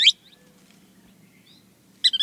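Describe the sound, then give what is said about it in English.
Sharp, high calls of a ringed kingfisher and a thick-billed kingbird in Central America: a short bright burst at the very start, a quiet stretch with faint low hum, then a quick cluster of loud repeated high notes at the end. “In Central America, an enormous ringed kingfisher. While nearby, a thick-billed kingbird calls.”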